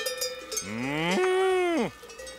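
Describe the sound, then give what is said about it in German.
One of forty cows kept in a barn lets out a long moo that rises and holds before dropping away at the end. Light clanks of cowbells are heard before it starts. “40 Kühe hat Josef im Stall.”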